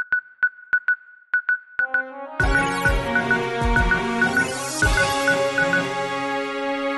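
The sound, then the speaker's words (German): A radio jingle plays in, opening with a run of high electronic beeps in an uneven rhythm, then breaking abruptly into a full, loud musical passage with a bright melody over a pulsing beat. “Wollen wir so einen Jingle einspielen? Ja, lass mal einen Jingle einspielen.”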